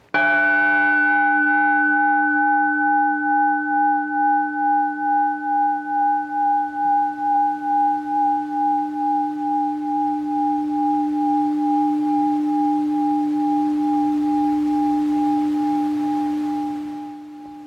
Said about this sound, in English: Alan's hitting that gong or chime, ringing that bell